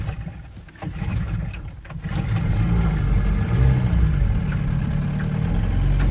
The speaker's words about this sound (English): Just gotta start this fine motor up.